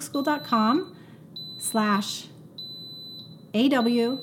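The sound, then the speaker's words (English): An Instant Pot pressure cooker beeps several times to signal it is done, giving short, high, thin electronic beeps at intervals that are partly buried under a person talking. “I didn't do very good getting that in between the beeps. This will beep 10 times to say it's done.”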